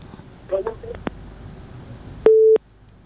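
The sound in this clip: A telephone busy tone after a call is cut off: one steady, mid-pitched beep stands alone once the line noise drops out, with a few fainter beeps earlier under crackly line hiss.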